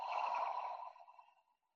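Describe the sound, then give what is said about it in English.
A long, breathy exhale through the mouth during a guided breathing exercise, heard alone. It starts as a strong hiss and fades away within under two seconds. “Big inhale through the nose. Big exhale through the mouth.”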